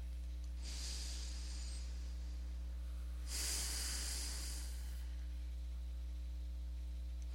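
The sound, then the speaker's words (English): Deep, slow breaths during a guided meditation: two long airy inhalations or exhalations, soft and breathy, over a steady low hum. “And a second breath. And a third.”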